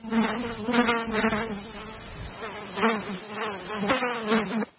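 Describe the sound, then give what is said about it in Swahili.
Black soldier flies buzz inside an insect-breeding factory in Kilifi on the Kenyan coast, a dense continuous drone of many wings that swells and fades in loudness throughout. “Kiwanda hiki kinatumia teknolojia mpya ya kisasa ya kufuga wadudu aina ya inzi wanaofahamika kama black soldier flies.”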